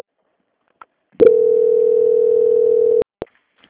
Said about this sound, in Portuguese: Só um instante, tá? Me aguarde em linha. Transferência.